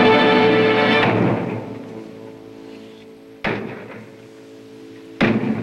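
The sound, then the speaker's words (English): Heavy blows from a slender cannon barrel pound on a carved wooden double door. Two sharp, loud thuds sound well apart, each followed by a short ringing decay. “Boldly strides to the carved wooden double doors and pounds on one with the cannon's slender barrel.”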